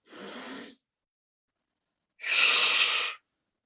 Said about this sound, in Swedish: Så vi börjar ta tre djupa andetag in genom näsan och ut genom munnen ganska kraftfulla.